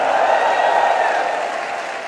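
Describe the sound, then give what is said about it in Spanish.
Applause from an audience at a religious gathering, a continuous mass of clapping that holds steady and then eases slightly in level over about two seconds. “Dale sobre tu cabeza aplausos. Un grito de victoria al Señor.”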